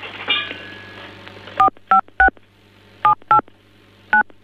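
Telephone keypad dialing tones on a phone line: six short, loud two-tone beeps in an irregular rhythm, after a brief noisy stretch at the start, over a low steady hum.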